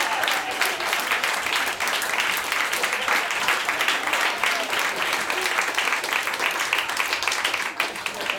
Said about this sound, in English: Oh, more applause. This is great.